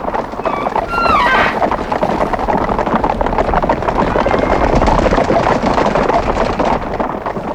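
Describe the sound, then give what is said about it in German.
A large herd of guanacos stampedes in a dense, unbroken roar of drumming hooves that holds steady and loud throughout, with a few high, whinny-like cries near the start. “Es hört sich an, als ob eine große Herde vor irgendetwas flüchtet.”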